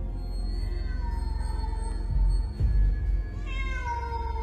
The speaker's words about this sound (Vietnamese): Rồi lại thêm một âm thanh ngoeo khàn khàn vọng tới.